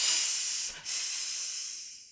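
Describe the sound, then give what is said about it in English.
A person imitates a hiss with a steady, sharp breathy hissing lasting about two seconds. It has a brief break near the start and slowly fades, with no talk. “One thing you must all remember is whenever I make my entrance, do not hiss like this.”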